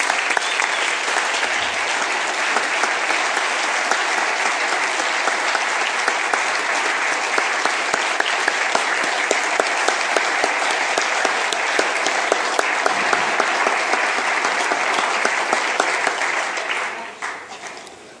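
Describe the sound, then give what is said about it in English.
An audience at the state Capitol applauds Mrs. South Dakota International with long, sustained clapping at a steady level that tapers off in the final seconds. “And I wanted to just ask all you to give her a hand.”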